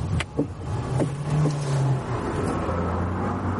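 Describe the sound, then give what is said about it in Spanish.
A car slows down and stops. Its humming engine tone drops lower and settles into a steady low idle, with a few small mechanical clicks near the start. “aminora la velocidad. Detiene el coche molesta.”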